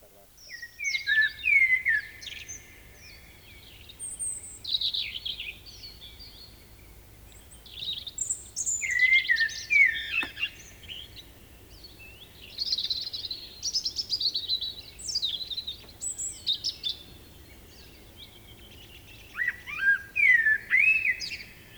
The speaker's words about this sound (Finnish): Musta rastas.